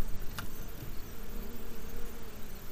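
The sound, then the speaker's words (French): Faint, continuous buzzing of honeybees working flowers such as thyme, linden and bramble blossoms, a soft steady drone with no voices. “Là, les abeilles euh, travaillent euh, sur euh, toutes les fleurs qui ont précédé.”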